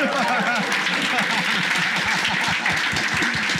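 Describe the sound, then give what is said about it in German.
A church audience applauds as a guest is introduced. Dense, continuous clapping carries on at a steady level, with voices rising and falling over it. “Gebt dem Götti einen Applaus.”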